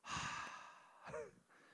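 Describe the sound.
A voice exhales a long, breathy rush of air as an imitation of the Spirit, followed by a shorter second breath, both moderately loud and with no words.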